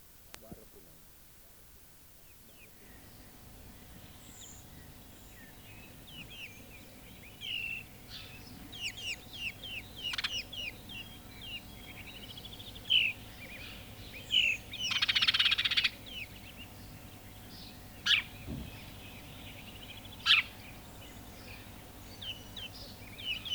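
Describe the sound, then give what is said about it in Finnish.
A house sparrow chirps repeatedly: many short, bright chirps in irregular bursts, some louder and sharper than others, over a steady low background hum. “Varpunen.”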